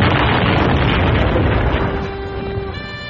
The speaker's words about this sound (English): The blast tore me from my platform soles.